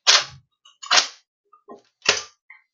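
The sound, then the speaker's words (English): Reloading a tactical shotgun in Fortnite: three loud, sharp, crackling mechanical clacks at uneven intervals, with fainter small clicks between them. “You can hear me reloading my tactical.”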